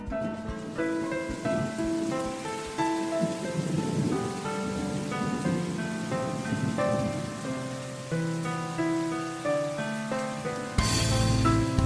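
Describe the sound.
Steady rain, a downpour heavy enough to send people running for a car, hisses beneath a soft melody of sustained tonal notes, with a brief louder burst near the end.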